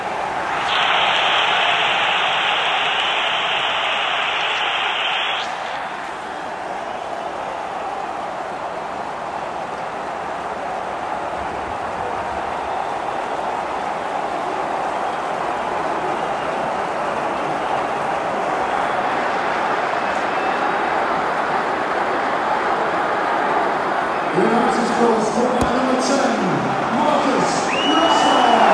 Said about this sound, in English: That is the sound of Old Trafford.